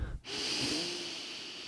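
A breath drawn in: a steady, airy rush of inhaled air that lasts over a second at moderate loudness, after a short low sound at the start.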